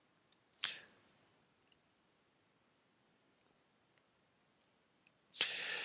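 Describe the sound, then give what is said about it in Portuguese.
Computer mouse clicks while someone navigates a stock-market data website: a few faint, sharp clicks separated by near silence, followed by a brief burst of louder noise. “Por exemplo, você clica no Prologis, por exemplo.”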